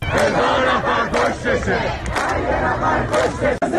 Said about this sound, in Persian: ویدیوهایی که منتشر شده جمعیت کثیری رو نشون میده که اونجا شعارهای علیه زن ستیزی و علیه حکومت جمهوری اسلامی سر می دن که ما الان صدای یکی از اون ویدیوها رو می شنویم